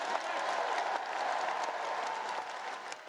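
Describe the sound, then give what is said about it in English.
A Labour Party conference audience gives a standing ovation, with sustained, dense clapping from a large crowd. It holds even and loud before easing slightly at the end. “Keir Starmer's big policy announcement, which received a lengthy standing ovation from the audience, was that a Labour government would create Great British Energy”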